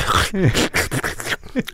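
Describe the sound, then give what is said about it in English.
A voice imitating a dog sniffing out caviar: several quick, breathy snuffles and nasal whines in a short, uneven burst. “The dog is walking back and forth in front of us. All of a sudden, the dog smells the caviar. Yeah. Smells here. Next thing I know, it goes”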